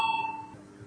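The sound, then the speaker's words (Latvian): A bell or chime calls members to a parliamentary vote: a single faint, steady tone that rings briefly and then fades away. “Paldies, lūdzu zvanu.”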